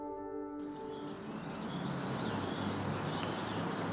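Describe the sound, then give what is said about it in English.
A flock of goldfinches calls together in a dense, continuous chorus of high twittering chirps that overlap with no break for the whole stretch. “This is the sound of the goldfinch, or rather a charm of goldfinches, as they're called collectively.”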